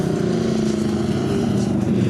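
Car engine on a light, barely open throttle while exiting a bend, giving a steady buzzing drone with an even pitch throughout.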